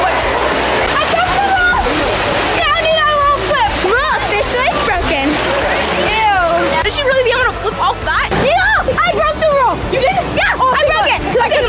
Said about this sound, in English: I have to step in the water before he flips. Okay, I'm gonna go in the water right now.